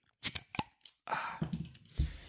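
A beer from a small brewery being opened and drunk: a few sharp snaps and clicks, then a sustained fizzing hiss with soft low sounds near the end.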